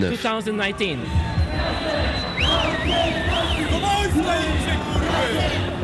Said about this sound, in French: Et voilà, ce que vous entendez là, c'est Lublin, en